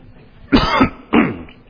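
Two harsh, loud coughs come from a person after something went down the wrong pipe. Each is a sharp burst with a short rasping tail, and a brief pause separates them.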